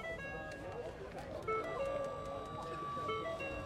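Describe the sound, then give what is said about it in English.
A steady whine from an electric motor driving a hydraulic pump, moving fluid from a reservoir into a vehicle's lifting strut. It is an even, continuous drone with faint tonal hums held throughout. “Is that the compressor I'm hearing? So it's an electronic motor that drives a hydraulic pump.”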